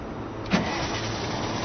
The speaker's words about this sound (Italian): avvia il motore del veicolo